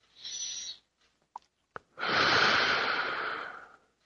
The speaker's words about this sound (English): And just softly say to yourself, I am prosperity. I am prosperity. I am prosperity. Deep breath.